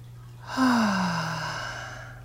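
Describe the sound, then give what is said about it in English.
One deep, focused breath during a guided breathing exercise: an airy exhale that swells and slowly fades, with a low voiced tone sliding downward and a steady low hum underneath. “So let's just take some focused breaths.”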